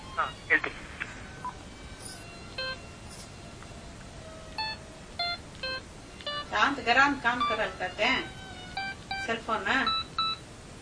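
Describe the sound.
Telephone keypad tones sound while a call is being placed: many short, bright beeps in quick, irregular succession, with voices talking over the later tones.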